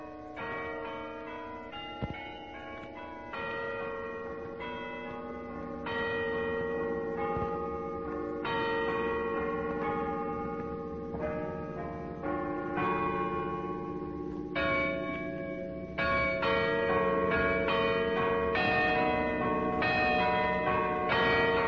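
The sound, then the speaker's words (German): Carillon bells ring from high in the tower of the old garrison church in Potsdam on Christmas Eve 1940, playing a steady melody of many struck, overlapping metallic notes at an even loudness, with no talking. “Das Glockenspiel hoch am Turm der alten Garnisonkirche.”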